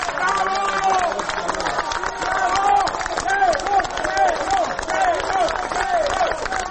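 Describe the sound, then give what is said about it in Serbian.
Clapping and shouting from citizens and opposition party members outside the special court building in Belgrade as they welcome a police inspector; steady applause runs throughout beneath overlapping raised voices and cries. “Aplauzom i uzvicima heroj, ispred zgrade specijalnog suda u Beogradu, građani i predstavnici dela opozicionih stranaka dočekali su 6. septembra Milana Isakova, jednog od policijskih inspektora koji je svedok u postupku Jovanjica.”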